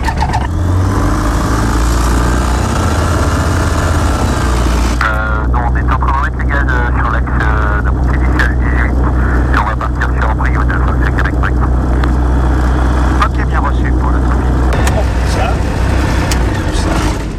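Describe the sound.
A small propeller airplane's engine starts up for a flight, giving a loud, continuous drone that changes tone partway through, with voices talking over it.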